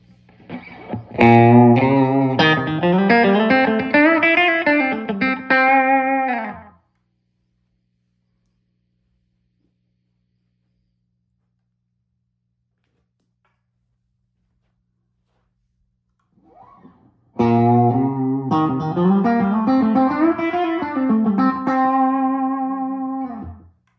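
An electric guitar solo through an amplifier, played first without and then with a sound-absorbing baffle: a distorted lead line of quick runs and bends, then a long silence, then the same solo played again.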